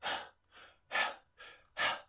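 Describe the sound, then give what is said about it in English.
A voice imitates rhythmic panting: five quick, breathy gasps in an even beat, alternating stronger and softer breaths, with nothing else heard. “you kind of like panting for a while from the damage of that, and then you're kind of panting like forms a bit of a rhythm”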